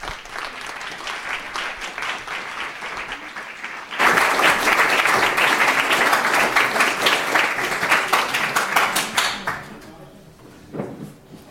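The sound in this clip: An audience applauds to welcome a speaker at a talk, the clapping starting moderate, then swelling into a loud, dense burst before thinning out and fading at the end.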